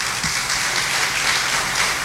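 Crowd applause, a dense, continuous wash of clapping that holds steady throughout at a fairly faint level, with no talk over it.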